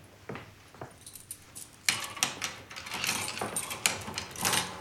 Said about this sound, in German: Schließen Sie bitte das Gitter.